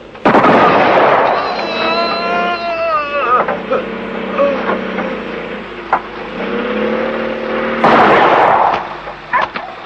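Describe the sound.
A firing squad's volley of rifle gunfire after a shouted order to fire. Loud crashing bursts open and close the stretch, with raised voices talking and shouting between them.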